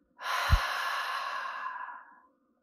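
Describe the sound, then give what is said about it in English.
One long, breathy exhale like a relaxed sigh. It is soft and steady for about two seconds, then tapers away, with a brief low thump near its start. “Now breathe out.”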